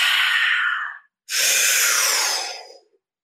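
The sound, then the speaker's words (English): Slow, deep breathing during a guided breathwork exercise: two long, airy breaths of a second or more each, separated by a brief silence. There is no voice. “exhale, inhale. Exhale, and again. Exhale.”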